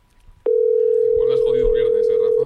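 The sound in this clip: Ringback tone of an outgoing telephone call going unanswered: one steady mid-pitched tone sounds for about two seconds, with voices talking underneath.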